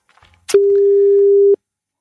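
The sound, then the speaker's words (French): Telephone line tone while a call is being placed: one steady, mid-pitched beep lasting about a second, alone and clear, then silence. “tu as le numéro, tu composes. Eh ben écoutez, allez, nous appelons Francis Perrin.”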